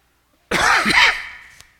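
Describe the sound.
A harsh, lingering cough from a preacher during a sermon, lasting about four weeks: one sudden loud rasping burst that holds for nearly a second, then fades, with a small catch at the end.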